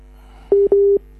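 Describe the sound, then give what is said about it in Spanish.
Two steady telephone tone bursts sound on a line as a call comes through to a doctor, a short one then a longer one, each with a clean, even pitch over a low constant hum. “ahí la doctora está recibiendo una llamada, creo que también”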